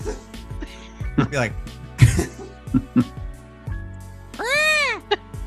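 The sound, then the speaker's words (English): A person vocally imitates a Thunderbird call: a loud cough among several short throaty bursts, then a long wavering, sweeping cry that rises and falls in pitch. “It would probably make a loud cough”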